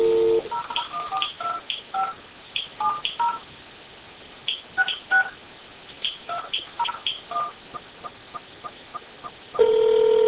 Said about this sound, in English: And now we'll switch over to the telephone system and try and access that message. Okay, let's dial into the unified messaging system.